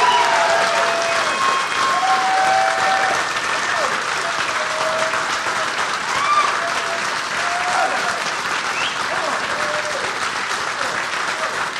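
A live comedy-show audience at Parlor Live in Seattle applauds the host with loud, sustained clapping that holds steady for the whole stretch. A few whistles ring out above the applause.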